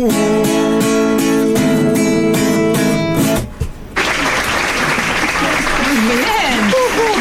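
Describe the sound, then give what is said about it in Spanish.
Recorded applause on a talk show: a song ends abruptly, then a steady wash of clapping rises and continues while voices talk over it. “Tenemos aplausos grabados, ¿no?”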